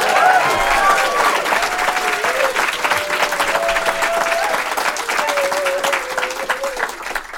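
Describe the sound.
Audience applause welcomes a speaker at a China career summit at Seneca. Dense, sustained clapping continues throughout, with a voice briefly sounding over it.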